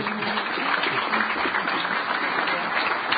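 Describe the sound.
An audience gives a warm welcome to a panel with sustained applause, a dense, even wash of many hands clapping at a steady level throughout.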